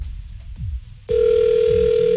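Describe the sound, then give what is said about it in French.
Telephone ringing tone on a call redialled after being cut off: a low rumble, then a steady, loud, unbroken tone that begins about a second in and holds to the end. “Chaque fois cette sonnerie, j'ai l'impression d'appeler à l'autre bout du monde.”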